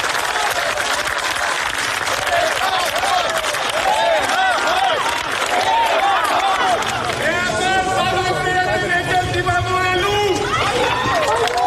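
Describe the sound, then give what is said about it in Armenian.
A gathered crowd claps and calls out to the Catholicos as he leaves an arrival hall and stops by a car. Continuous applause mixes with a babble of voices, and the shouting grows more sustained and chant-like in the second half. “ժամանման սրահից դուրս եկավ հավաքվածների ծափեր ու կոչը նրան ստիպեցին կանգ առնել մեքենայի մոտ”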